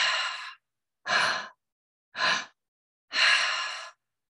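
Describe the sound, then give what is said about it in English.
A breathing demonstration in which a belly breath and then a heart breath are followed by an exhale: four distinct airy breath sounds separated by silence, with the first and especially the last longer, and the final exhale drawn out and gently fading. “So I'll just give you a little example. So belly breath, heart breath, exhale.”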